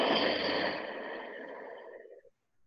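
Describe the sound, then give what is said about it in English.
A deep breath out during a yoga breathing exercise: one long, airy exhale, loud at first, that softens and fades away over about two seconds. “Breathe in. Empty out.”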